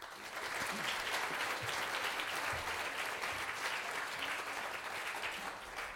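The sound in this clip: Audience applause greets the speakers at an evening Cambridge Science Festival talk. The clapping is dense and steady, holding loud and even for about six seconds with no voices over it.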